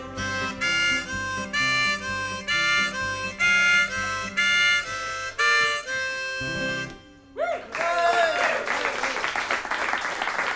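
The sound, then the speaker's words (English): A live ballad performance ends with instruments playing a rhythmic tune for about seven seconds, then breaks into audience applause, a dense burst of clapping that fills the last few seconds. “Thank you very much, ladies and gentlemen. Thank you very much, a mighty clap.”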